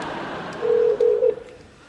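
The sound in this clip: Telephone keypad tones as a hotel's phone number is dialed: two short, steady beeps sound back to back over a constant background hiss.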